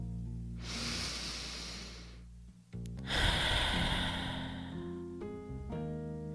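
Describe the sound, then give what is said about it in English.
A slow, deep breath, heard as an airy inhale of about two seconds, a short pause, then a longer, louder exhale, with soft sustained music underneath. “let's just take a moment and take a deep breath together.”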